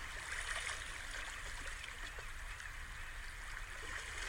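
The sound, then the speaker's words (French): Soft, steady wash of sea water at a shoreline, a faint continuous hiss and trickle with no strong surges, even in level throughout. “comme si c'était la respiration de la terre en fait. L'eau se dépose doucement et repart vers la mer.”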